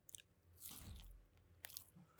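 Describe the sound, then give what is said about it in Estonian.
Chewing and biting into a chickpea and carrot ball, soft moist bites with a few small crunchy clicks, faint and without talk. “vahelduseks ma söön äh, kikerherne porgandipalli.”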